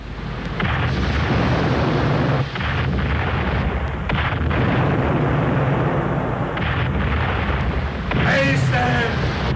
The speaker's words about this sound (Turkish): Yelkenler forar! Leventlerim, topçularım, ateş!